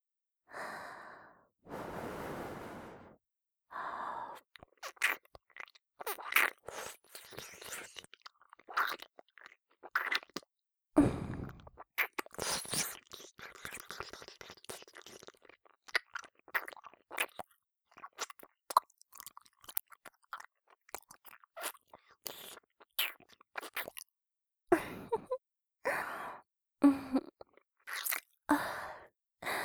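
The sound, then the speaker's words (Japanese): Wet ear-licking ASMR mouth sounds, close and quiet, with many irregular smacks, slurps and soft breaths coming in short bursts separated by brief pauses. “お姉さんに耳をなめられて”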